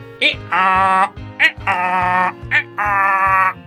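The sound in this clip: A donkey brays three times, each call a short, sharp intake followed by a long, loud, harmonic nasal bray in a steady repeating pattern.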